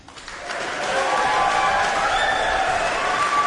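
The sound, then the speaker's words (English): Audience applause at a competition as semi-finalists return to the stage. The clapping swells over the first second into a dense, steady round that holds loud to the end. “Please give a warm round of applause for Amanu Fonoti Fui Ma'ono,”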